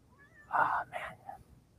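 A cat meows: one clear, fairly faint mew, followed by a shorter second call and a small trailing chirp, over quiet background noise.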